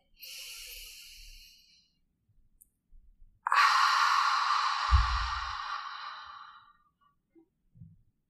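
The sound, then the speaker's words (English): Two breathy exhales through the mouth during a guided meditation breathing exercise: a short soft hiss, then a long, loud open 'haa' like fogging a mirror that slowly fades, with a few faint low thumps around it. “through the nose to fill up the lungs and exhale through the mouth, making a sound like fogging a mirror. Exhale completely Go ahead.”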